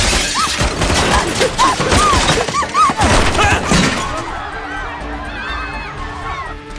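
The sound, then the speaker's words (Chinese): Gunfire erupts in a tense hostage standoff: a rapid run of sharp, loud cracks and bangs mixed with shouting voices for about four seconds, then the noise drops to a quieter hum. “谁开枪？谁开枪？”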